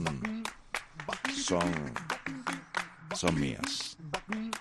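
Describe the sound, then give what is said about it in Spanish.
Hand claps keep a steady, rhythmic beat alongside a singing voice, with many sharp claps running through the whole stretch beneath the melody. “quiero aclarar que el cumbaquín ese que escuchan ahí, esa voz cantando y esas palmas”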